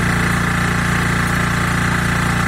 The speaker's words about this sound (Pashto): له دوه میاشتو وقفې وروسته د جنراتور د غږ اوري